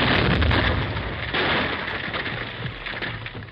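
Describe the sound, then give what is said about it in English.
A mining blast in a gold-mine tunnel cut into a hill, sending loose shale sliding. It comes as a broad, noisy rumble that starts strong and slowly tapers off. “Each blast sent loose shale sliding into the valley.”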